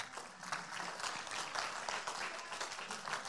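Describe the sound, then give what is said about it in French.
An audience applauds during a French-language church service. The clapping is faint and steady, with many hands patting continuously throughout and no single voice standing out. “Est-ce qu'on peut acclamer notre Seigneur ce matin?”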